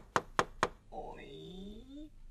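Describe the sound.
Three crisp, evenly spaced knocks on the door of a pig's hut, followed by a voice speaking.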